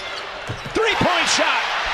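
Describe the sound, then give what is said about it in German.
Sounds of a college basketball game: a few dull ball thuds on the court mixed with high squeaky tones and voices in the background. “So klingt es, wenn im College Basketball gespielt wird.”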